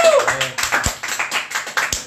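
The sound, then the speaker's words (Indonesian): Audience applause comes as a brisk run of distinct claps, fairly loud and close together, with a brief voice at the very start. “Tepuk tangan. Penonton.”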